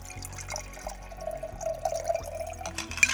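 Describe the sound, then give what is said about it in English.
Liquid pours for a drink mixed with lime juice, a pinch of cayenne pepper and ground ginger, trickling and splashing steadily with scattered drips. “a pinch of cayenne pepper, and a pinch of ground ginger. Now shake, pour,”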